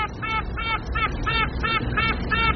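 A new queen honeybee piping inside the hive: seven short, buzzy tooting pulses in a steady rhythm, each bright and reedy with rich overtones, over a low background hum.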